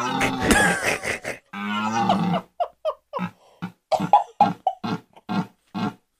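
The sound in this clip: A toddler protesting a diaper change: a long fussy wail and drawn-out cry, then many short, sharp yelps and grunts in a halting, uneven rhythm.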